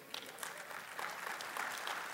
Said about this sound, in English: I got the same golf clap in the first service.